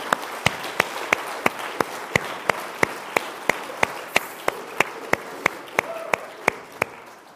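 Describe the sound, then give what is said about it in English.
Audience applause for the students at a weekend retreat, given by retreaters and leaders: many sharp, evenly paced claps ring out over a steady, noisy bed of clapping, holding a moderate level throughout. “I would like for you who are here as retreaters and leaders just to give a round of applause to the students who have done so much in so many ways this weekend.”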